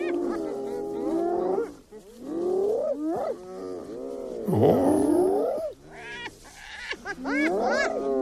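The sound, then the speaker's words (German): A spotted hyena gives a loud series of harmonic whooping, giggling calls whose pitch swoops up and down, in several bursts separated by short pauses. “Ja, wenn Sie mich fragen, klingt fast so ein bisschen wie ein Lachsack oder sowas, aber ist tatsächlich die Originalaufnahme einer Tüpfelhyäne.”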